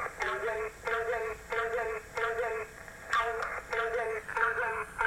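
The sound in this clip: A radio transmission of a coded spy message that Polish agents sent to one of their spies: many short, evenly paced tonal bursts with a thin, band-limited timbre repeat at a steady rhythm.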